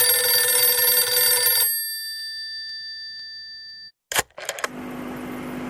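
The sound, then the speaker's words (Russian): A telephone bell rings once with a bright metallic trill that fades out within two seconds. A short silence follows, then a few sharp clicks, then a steady hiss. “Вдруг зазвонил телефон.”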